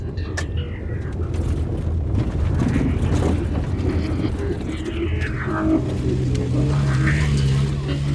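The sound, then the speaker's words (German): A red off-road vehicle climbs a bare hill through curve after curve, past high-piled rubbish and corrugated-iron shacks. Its engine gives a continuous, loud, rumbling drone that shifts in pitch, with wind buffeting the microphone throughout. “Kurve um Kurve klettert der rote Geländewagen einen kahlen Hügel hinauf”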